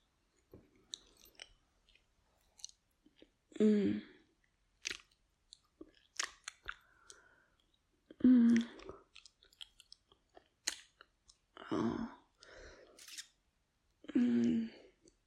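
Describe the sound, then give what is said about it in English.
Wet licking and slurping mouth sounds come in short, intermittent bursts, with a soft breathy voice moaning between them. “Let me give this a lick, yeah?”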